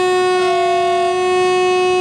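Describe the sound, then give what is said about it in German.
A train horn sounds as the train departs on a short 700-metre line from the buffer stop at the former inner-German border, during a railway anniversary celebration: one long, steady, loud tone held unbroken for about two seconds. “700 Meter fährt die Bahn vom Prellbock an der ehemaligen deutsch-deutschen Grenze bis nach Blankenstein.”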